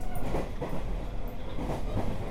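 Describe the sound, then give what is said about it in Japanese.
Passenger train running on rails on an overnight service approaching the Seikan Tunnel, a continuous low rumble with faint, irregular rattling and clicking, steady and fairly quiet, with no talk. “この列車青函トンネルには22時40分頃入ってまいります。”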